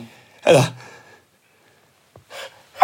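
An allergy sneeze: one sharp, loud burst, followed after a pause by brief, fainter vocal sounds.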